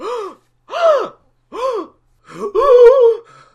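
Several sharp, voiced gasps come in quick succession, each bending up and then down in pitch. The last is longer and more drawn out. No speech accompanies them.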